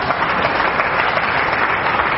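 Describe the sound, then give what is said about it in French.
An audience applauding at a church service: a loud, steady, even roar of many hands clapping with no break, heard alone. “acclame le Seigneur, Amen, acclame le Seigneur.”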